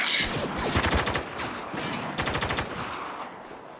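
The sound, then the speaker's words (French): Rapid automatic gunfire in a war video game firefight as squad members are surrounded and open fire: two dense bursts of fast, crackling shots over a steady rumble of battle noise. “Ils nous encerclent. Attaquez Ouvrez le feu”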